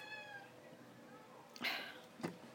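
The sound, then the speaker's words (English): A pet cat meows faintly: a drawn-out harmonic meow at the start, followed by two brief, sharp noises. The sound is quiet overall. “yes, that's one of my cats.”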